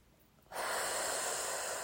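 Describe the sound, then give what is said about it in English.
A single long, airy breath during a tapping relaxation exercise. It starts abruptly after a moment of near silence and then continues as a steady, soft hiss to the end, with no talk over it. “And exhale, chin, and inhale, exhale,”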